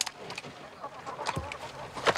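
Chickens clucking inside a chicken coop: a few short, scattered clucks and chirps at low volume, with a louder call near the end.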